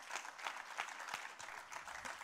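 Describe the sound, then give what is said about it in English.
Church audience clapping and applauding after a line in a sermon, faint, loose, uneven claps with several distinct sharper hits scattered across the stretch rather than a dense roar. “First church service that ever clapped when I said, you're going to be in hell.”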